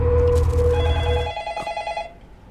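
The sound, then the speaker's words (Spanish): A telephone bell rings for an incoming call, a rapid trembling ring that follows a sustained tonal passage and fades away at the end. “Justamente estás platicando cuando entra una llamada.”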